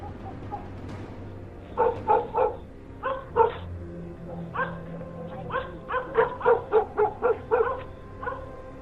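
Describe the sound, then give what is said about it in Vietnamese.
Dogs bark at night at the edge of a village where a river flows past. Many sharp barks come in irregular clusters, moderately loud above a low, steady background. “Người ta chỉ biết hàng đêm ở đầu làng, chỗ con sông chảy qua, thỉnh thoảng nghe tiếng chó cắn ma cứ nhấp nhà nhấp nhặng.”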